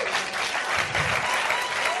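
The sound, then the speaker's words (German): Applause for a church band from a daughter audience in Lübbecke: dense, steady clapping from the audience throughout, with a voice speaking over it. “Das ist die Band aus unserer Tochtergemeinde in Lübbecke. Hey, gib dir mal einen Applaus.”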